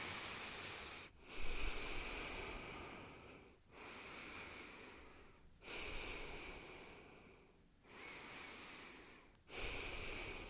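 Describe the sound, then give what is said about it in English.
Slow, deep breaths alternate between breathy, hissing inhales and long exhales in a steady, unhurried rhythm. The breathing is faint and close, and no one speaks. “So before I begin, let's just take 3 deep breaths here, okay?”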